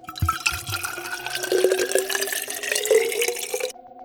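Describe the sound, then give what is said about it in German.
Liquid pours steadily for several seconds as wine, from a bottle taken out of ice, fills tin cups. The gurgling stream stays fairly even and then stops abruptly. “Er grub eine Weinflasche aus dem Eis, öffnete sie, goss die Blechbecher voll.”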